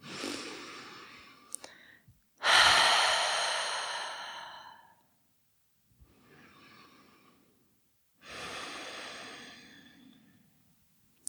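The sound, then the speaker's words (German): Deep breathing in and out through an open mouth, made up of a few slow, airy breaths with long, soft, rushing exhales and quiet gaps between them. “Und nimm hier ein paar tiefere Atemzüge ein und aus. Gerne mal durch den geöffneten Mund.”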